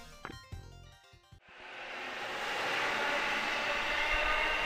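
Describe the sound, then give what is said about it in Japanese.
Train noise at a railway station platform: a broad, loud roar swells after the first second or so and then holds steady and strong to the end, with no voices. “今日はですね、今私、高円寺という駅のホームに来ておりまして、これからですねラジオの収録をするわけなんですけれども”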